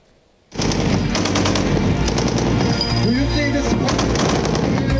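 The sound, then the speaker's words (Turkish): Rapid, sustained automatic fire from a close-range air defence gun system during a firing test in Konya, bursting in abruptly after a brief silence and staying loud and dense to the end. “Tehditleri belirledi, hedefleri başarıyla vurdu. Makine ve kimya endüstrisinin geliştirdiği Tolga yakın hava savunma sistemi Konya'da test edildi. Atış testine 24 ülkeden 64 askeri ve sivil heyet katıldı.”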